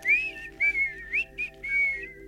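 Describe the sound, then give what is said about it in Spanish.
Gentle, relaxing whistling drifts through a few soft melodic phrases with short pauses between them, over a faint steady hum. “Yo te he puesto a ti un silbidito para que tú te relajes.”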